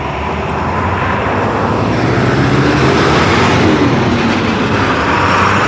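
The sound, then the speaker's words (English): UPS delivery truck driving past: a loud, steady engine rumble with road noise that fills the whole clip, holding fairly even throughout. “yes, that's the UPS truck again.”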